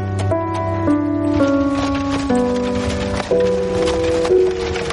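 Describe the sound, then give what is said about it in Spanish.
A horse-drawn carriage moves along a road between green hills in 1783 Denmark under cloudy skies; hooves clip-clop at a steady pace beneath sustained, stepping music. “El cielo está muy nublado y un carruaje avanza por un camino entre verdes colinas.”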